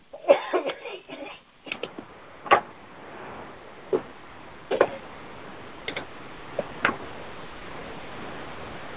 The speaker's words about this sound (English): I just had to mute you because the coughing there was getting out of hand.